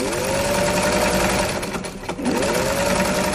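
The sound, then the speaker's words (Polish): A sewing machine whirs steadily as girls learn to sew bags, backpacks and waist bags meant for Poland. The motor hum runs continuously, easing briefly just past the midpoint before resuming at full speed. “Dziewczyny uczą się, jak szyć torby, plecaki, nerki, które później trafiają do Polski.”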